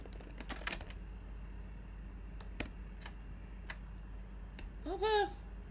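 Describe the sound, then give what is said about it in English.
Keystrokes on a computer keyboard: a quick burst of several taps at the start, then a few isolated clicks spread out over a steady low hum, with a brief voice near the end. “Let me type that bit.”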